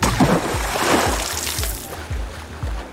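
Someone falls into water with a splash, followed by continuous churning and sloshing water with soft low thumps pulsing underneath.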